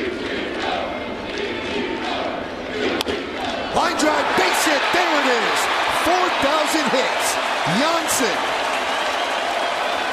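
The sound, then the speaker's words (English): Crowd noise at a baseball game as Ichiro Suzuki gets his 4,000th combined hit between the major leagues and Japan. A sharp crack is followed by a swelling roar of cheers and piercing whistles over a steady murmur. “Sound courtesy of ESPN. That was the sound of Ichiro Suzuki hitting his 4,000th hit between the major leagues and Japan.”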